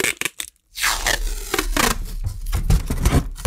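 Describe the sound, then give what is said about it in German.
Adhesive tape ripped off its roll, a few short, rasping tears, a brief silence, then a longer, loud, scratchy pull that runs to the end. “Ich kann das Klebeband sogar wieder zurück auf die Rolle kleben und dann wieder abziehen.”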